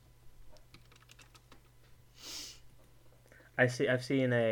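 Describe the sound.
Typing on a computer keyboard gives a quick run of faint, light clicks, followed by a sniff and then a person talking.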